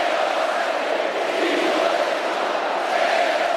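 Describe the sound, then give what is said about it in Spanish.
A political rally audience chanting together as one sustained, dense roar of many voices, loud and steady from start to finish. “También mientras el público coreaba una y otra vez esto.”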